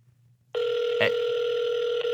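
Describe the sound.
A telephone call is placed: after near silence, a steady electronic line tone cuts in abruptly and holds evenly, broken by a brief click partway through.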